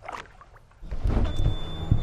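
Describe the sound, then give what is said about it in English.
A boat motor starts on the water near Chicago. A few faint knocks come first, then a low rumble kicks in partway through and holds at a steady level. “I'm glad the motor started.”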